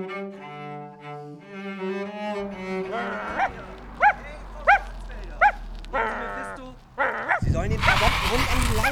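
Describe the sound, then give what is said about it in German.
A dog gives a few sharp, yappy barks among voices, with some whimpering. A harsh burst of noisy rustling follows. “Der macht nichts, der will nur spielen. Hören Sie, das ist wirklich gefährlich. Fangen Sie mal endlich mit der Hundeerziehung an.”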